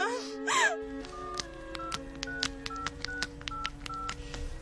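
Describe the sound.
Telephone keypad beeps as a number is dialed for an emergency call: many short tones in fairly quick succession, preceded by a brief pained moan at the start.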